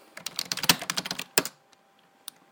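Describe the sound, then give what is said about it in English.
Typing on a computer keyboard: a quick burst of many clicky keystrokes, then a few isolated taps trailing off into near silence. “And let me type in something.”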